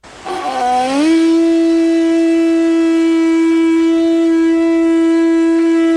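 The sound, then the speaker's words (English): A conch shell being blown, from a Lord of the Flies adaptation: a loud, horn-like tone that slides upward in pitch at first, then holds steady and sustained with rich overtones. “That was the sound of the conch.”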